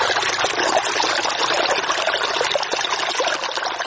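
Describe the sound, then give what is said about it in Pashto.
Irrigation water flows over a farmer's field in a steady, loud rushing and trickling wash that stays constant throughout. “چې اوس مهال د خپل زمکی په خړوبولو بوخت دی”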